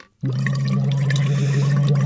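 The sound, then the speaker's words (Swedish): Bubbling into water through a voice-training phonation tube: after a brief silence, a steady low hummed tone starts, carried on continuous gurgling water bubbles, loud and unbroken to the end. “Jag har ett fonationsrör här som man ska bubbla i före sändningarna. Låter så här.”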